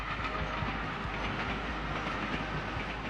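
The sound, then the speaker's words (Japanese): Rumbling, clattering rail noise of a mine trolley on its track, a steady, dense roll that holds at an even level throughout with no voices. “よし、トロッコレールに戻すぞ。”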